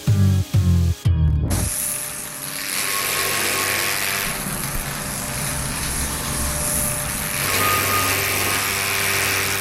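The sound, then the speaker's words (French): Loud, steady, high-pitched hissing whine of a power tool running in a sculpture workshop, holding on without a break and swelling briefly in the later part. “Ni coiffeur, ni dentiste, mais dans un atelier de sculpture avec vous”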